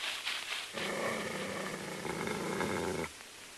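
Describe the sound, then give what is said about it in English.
A leashed German shepherd growling as it bares its teeth, giving one sustained, low, rumbling growl of a couple of seconds, faint and steady, after a few short scuffling noises. “Holding a German shepherd on a leash, the sergeant approaches Laddie. The German shepherd bares his teeth.”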